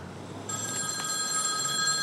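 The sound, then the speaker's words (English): A telephone rings with a bright, steady electronic tone that begins about half a second in and continues unbroken over a constant background hiss. “He answers the wrong phone and angrily hangs up.”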